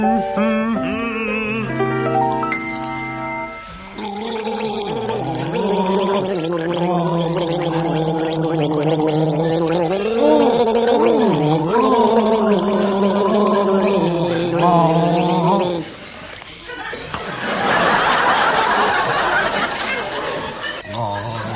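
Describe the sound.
Two people gargling water to the tune of a song, producing a bubbling, wobbling, sung melody in layered voices. A short burst of rough, noisy sound follows near the end.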